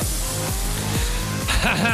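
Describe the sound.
A car engine revs hard as the car pulls away, its loud tone climbing in several rising sweeps that break off and start again, like shifts through the gears.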